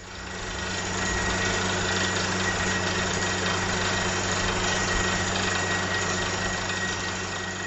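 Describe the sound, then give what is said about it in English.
A well drilling rig bores through limestone bedrock for a water well, its engine fading in to a loud, steady drone with a low knocking throb and a faint high whine running underneath. “If you guessed drilling a water well, you're right. That was the sound of a well drilling rig in June 2014, working through 100 to 200 feet of limestone bedrock to reach groundwater”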